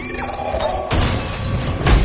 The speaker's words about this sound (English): Light bulbs explode.